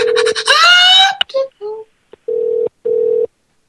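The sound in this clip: A telephone sounds a double ring: two short bursts of a steady buzzing tone separated by a brief gap. Before them comes a wavering, moaning tone that rises in pitch, followed by a few short scattered sounds.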